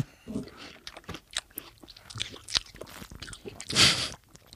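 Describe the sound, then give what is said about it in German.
Chewing on melon: crunchy bites and wet, squishy mastication come in a few bursts, with the loudest crunch near the end. “ich fange schon mal an, Melone zu essen.”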